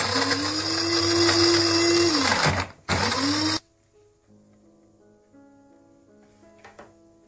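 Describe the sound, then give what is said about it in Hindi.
A grinder grinds walnuts and almonds in two loud bursts. The motor whirs steadily, climbing in pitch and then sagging as it stops, and a short second burst follows before near silence with faint clicks. “अखरोट और बादाम को मैंने देखे इस तरह से grind कर लिए, इसको मैंने बिल्कुल बारीक नहीं पीसा।”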